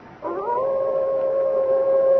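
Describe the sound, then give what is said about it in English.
A white wolf gives one long, clear howl that swells in at the start and then holds a steady, fairly high pitch to the end, with no other sound behind it. “There, Father. Through the trees. The white wolf.”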